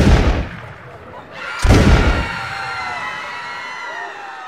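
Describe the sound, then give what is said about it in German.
Two pistol shots fired at a car stopped on a bridge carrying an heir to the throne: two sharp, loud reports about a second and a half apart, each trailing off into a long fading tail. “Er hob die Waffe und drückte zweimal ab.”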